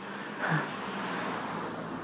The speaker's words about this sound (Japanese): なんかすっげえ車来る。渡れないし。